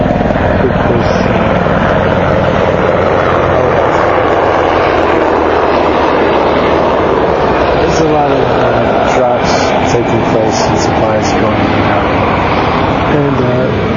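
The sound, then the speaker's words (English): Aircraft flying overhead, a loud, continuous engine roar that holds steady for the whole stretch while a person talks over it. “Oh yeah, you can hear the flyover right now.”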